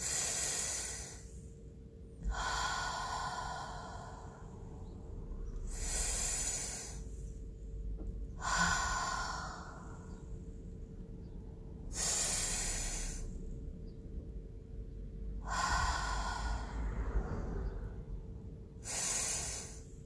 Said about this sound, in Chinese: 好，现在我只是做一个示范。深呼吸了三次以后，我感觉我说话的频率都降低了